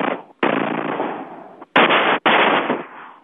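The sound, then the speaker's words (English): A man's voice imitates machine gun fire, a few long harsh rattling bursts, loud and noisy, separated by short gaps. “what does a machine gun sound like? I go, it goes like this.”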